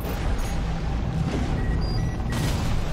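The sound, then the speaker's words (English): Heavy missile fire from mechs in Armored Core 6 combat: a dense, continuous wall of booming blasts and rumbling detonations that stays loud and steady throughout, with no voices. “Use your missiles.”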